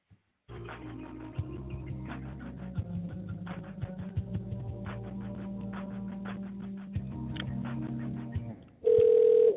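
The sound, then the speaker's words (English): Telephone call connecting: a soft, sustained tonal passage plays quietly for several seconds, then a loud, steady ringing tone cuts in abruptly at the end. “You will now be connected to the person you dialed.”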